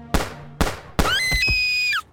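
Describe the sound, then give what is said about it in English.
Three sharp gunshot-like bangs crack out in quick succession during a late-night street attack. The last bang runs straight into a loud, high, sustained scream that breaks off suddenly. “He shot my sister! He shot my sister!”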